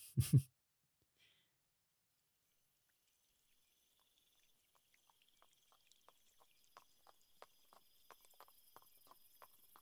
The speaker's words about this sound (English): Do you have a horse? Of course not. They're a level 30 item. Or we can both ride on mine.